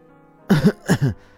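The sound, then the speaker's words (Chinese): A male voice acts out a man's short throat-clearing cough, made of two quick voiced bursts that each have a double pulse, with silence before and after. “蒋泽旭咳了一声”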